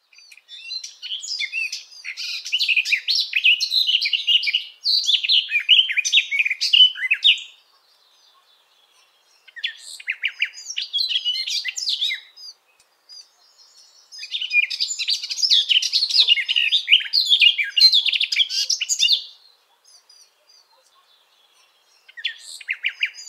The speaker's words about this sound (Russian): Садовая Славка.